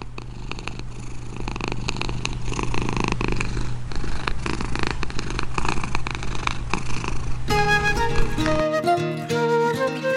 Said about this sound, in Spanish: No hay nada tan reconfortante como su ronroneo, ese lenguaje inexplicable que llena de goce.